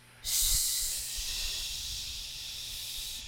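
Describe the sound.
A long 'shh' exhale, like blowing out candles, is demonstrated as a breathing technique for pushing during a bowel movement: one steady, soft hiss that starts abruptly and runs for about three seconds alone.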